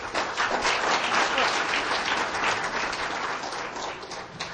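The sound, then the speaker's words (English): A church audience at a Baptist service gives steady applause to welcome a singer. The dense clapping stays even and continuous throughout, with no voices over it. “Give her a hand.”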